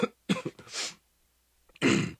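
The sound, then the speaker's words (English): A person chokes mid-talk after mistiming a breath, producing harsh, raspy coughing and throat-clearing bursts. A few rough bursts come close together, then a quiet pause, then one loud final cough. “I'll breathe in when I should have breathed out. Every single one of these podcasts are recorded in one sitting. You just experienced that. I choked, and I'm not going to edit that out.”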